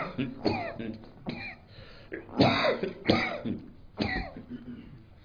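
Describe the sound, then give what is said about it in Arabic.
A run of harsh, breathy coughs and throat-clearing bursts, several separate noisy blasts spaced irregularly, with quieter gaps between them. “وكأن الكحة دي بتقول لي خلص يعني”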